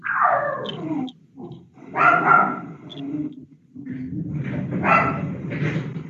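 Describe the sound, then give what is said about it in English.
Dogs barking during an online parliamentary committee meeting: a few loud bursts of barking and yelping separated by short pauses, with the final stretch more sustained. “You are being intimidated by dogs now.”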